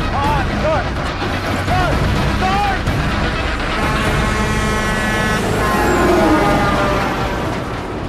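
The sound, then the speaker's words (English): Heavy engine rumble of a large lorry driving, a dense, continuous roar that holds steady throughout, with voices talking over it. “Some bright lights are heading towards them.”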